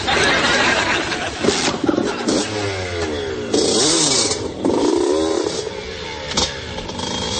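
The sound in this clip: Motorcycle engine revving hard as the bike is ridden through stunts, loud and continuous, with repeated rising and falling pitch sweeps across a few bursts of throttle.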